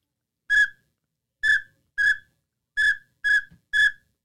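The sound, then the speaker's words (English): A widgeon duck whistle call is blown in six short, clear, high-pitched whistles. They come at an uneven pace with silence between them. “So what is this supposed to be, a widgeon? Terrible. I hate it.”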